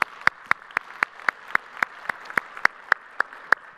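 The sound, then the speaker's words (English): A church audience claps to welcome people joining from the Stone Canyon and Verdigris campuses, many sharp, evenly spaced claps in a steady beat, with no cheering or talking over them. “So if you would, put your hands together and welcome them to church this morning.”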